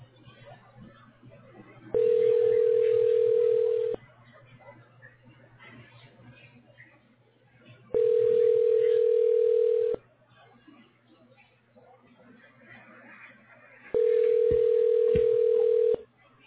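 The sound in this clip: Telephone line tone heard after a dropped call: three evenly spaced steady beeps, each about two seconds long, with pauses between them, over a low constant hum and faint background noise.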